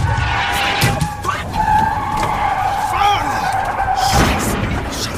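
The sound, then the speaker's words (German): A car's tires skid and squeal on the road before it crashes into a tree: a sustained, loud, wavering squeal over rough engine noise, with a harsh noisy burst near the end. “Alter, der ist voll gegen den Baum! Voll gegen den Baum!”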